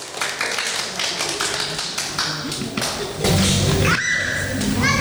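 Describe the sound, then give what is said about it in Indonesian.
Audience clapping for a child performer: many sharp, uneven claps and taps, growing louder and denser after about three seconds, with other sounds mixing in toward the end. “Tepuk tangan dulu buat Mas Fadil.”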